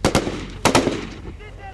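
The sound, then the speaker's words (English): Machine gun fire in short bursts during a firing exercise: two rapid bursts of sharp, loud reports, the second followed by a fading rumble. “Considering it's the first time we burst fire. Burst fire, which means 6 to 8 round burst. That's what we're trying to achieve with them.”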